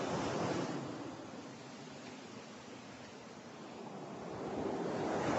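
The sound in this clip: Sea waves washing onto a shore: a steady, broad rush of surf that swells at the start, eases through the middle and builds again toward the end, with no voices.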